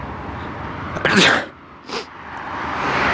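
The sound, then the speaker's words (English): A single sneeze bursts out sharply after a quiet moment, a loud, breathy explosive burst that fades quickly into a low background. “I'm going to sneeze again.”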